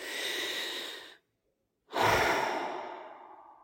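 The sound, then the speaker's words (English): A long, deep human breath taken during a voice exercise: a steady airy inhale, a brief silent hold, then a louder, fuller exhale that slowly fades away. “Let's take another long, deep breath.”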